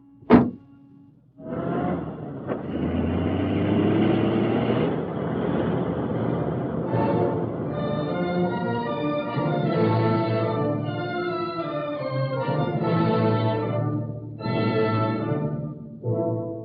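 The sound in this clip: A taxi pulls away in a hurry: a sharp thump, then a loud, steady engine roar that carries on to the end.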